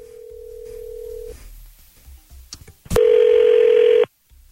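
A telephone dialing a number: a steady dial tone, then a few soft clicks, then a loud, buzzy continuous tone that lasts about a second and cuts off abruptly.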